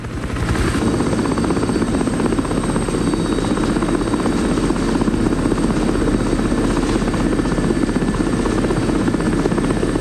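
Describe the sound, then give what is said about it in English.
A helicopter flies over snow-covered mountains and a desolate canyon: a loud, steady engine-and-rotor drone runs unbroken for the whole stretch, with no voices. “The helicopter continues to scour miles and miles of desolate canyon.”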